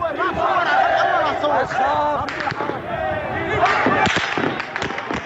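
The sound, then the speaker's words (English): Gunfire as armed men shoot at civilians during an uprising: a few sharp cracks and thuds break through a loud, continuous roar of shouting crowd voices. “And there again, we see Assad's men shooting on civilians.”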